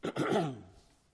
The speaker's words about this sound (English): see if I can't muffle this coughing a little bit.